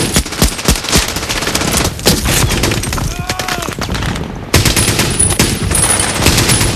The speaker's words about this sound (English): Miller's Rangers fire into the open, covering the four soldiers as they run. Caparzo's thick neck bulges as he grits his teeth and shoots.